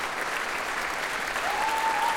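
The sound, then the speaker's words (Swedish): Sustained applause from a concert hall audience for a symphony orchestra, a dense, steady wash of clapping that swells slightly toward the end, with a faint high tone briefly audible over it. “allt så som applådrundan går runt så ställer sig faktiskt fler och fler upp här i Berwaldhallen och applåderar Sveriges Radios symfoniorkester som nu reser på sig”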